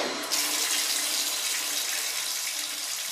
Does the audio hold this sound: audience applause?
no